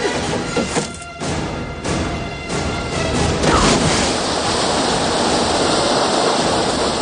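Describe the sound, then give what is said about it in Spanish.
A steady, loud rush of grain pours down a chute into a ship's hold. It is a dense, hissing roar that continues without break from start to end. “Un trabajador da la orden de detener la caída de grano”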